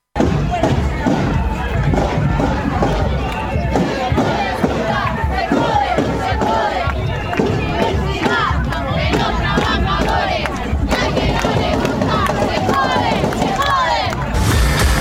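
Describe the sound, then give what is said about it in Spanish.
A huge crowd on a march in defense of the public university in Santa Rosa, La Pampa, chants and shouts. Dense, loud collective voices continue without pause, with dull thumps mixed in. “Multitudes coparon las calles y plazas del país para defender a la universidad pública. Y en Santa Rosa, La Pampa, la movilización fue histórica.”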